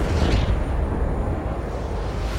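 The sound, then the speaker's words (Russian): A spaceship blows up after a shell hit: a loud, dense rumbling roar that fills the whole clip, with a brief bright hiss near the start and no single sharp crack. “От снаряда Топаз космолет взрывается.”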